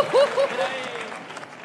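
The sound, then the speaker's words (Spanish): Applause for dancers: a crowd claps in a dense, steady wash for under two seconds, with voices rising over the start before the clapping thins out. “aplauso para los bailarines.”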